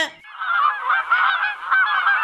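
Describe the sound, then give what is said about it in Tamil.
Crows caw loudly in a few harsh, nasal calls that run together into a nearly unbroken, slightly wavering stream. “காக்கா கத்துற சத்தம் இன்னும் கேட்டுக்கிட்டு இருக்கு.”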